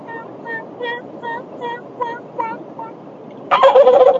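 Soft yelps from a Nightingale Old Yeller turkey call, played lightly toward a gobbler on the opening of Alabama turkey season: a steady series of short, raspy, evenly spaced notes, followed by a louder harsh burst at the end.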